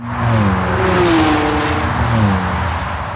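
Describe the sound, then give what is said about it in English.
A car drives and accelerates on a road in Germany, its loud continuous engine roar carrying tones that climb in pitch, ease off, then climb again. “I'm never going to get used to driving in Germany.”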